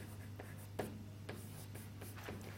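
Someone writes out an equation, making a series of faint, brief scratching strokes at an uneven pace over a steady low hum.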